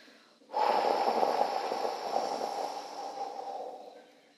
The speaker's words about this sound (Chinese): 深深的吸气，再慢慢的吐气出去。